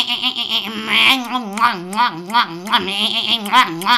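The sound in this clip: A voice imitates a goat bleating, giving a string of quavering, wobbling bleats with a shaky, tremolo pitch, fairly loud and continuous throughout.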